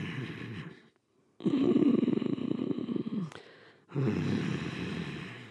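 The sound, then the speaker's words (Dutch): Forceful growling exhales from a person making a tiger sound in a breathing exercise: three long, breathy, rough rushes of air with a low rumble, separated by short silent gaps, no talk. “Dus je ademt in met wat heet de dragon breath, de drakenademhaling. Moet je daar geluid bij maken? In het begin is dat handig. Ja? En je ademt uit met de tiger sound.”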